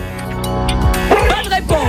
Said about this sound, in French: C'est un chien derrière.